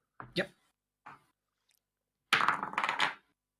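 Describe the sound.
Dice rolled for an attack roll in a tabletop game: a few short clattering knocks, then a longer, denser rattle of tumbling dice that settles after under a second.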